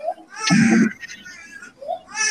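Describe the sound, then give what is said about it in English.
A baby whining in short, fussy bursts, a louder strained cry in the middle framed by briefer high whimpers, with quieter gaps between them. “speaking of Dalton, my baby's whining”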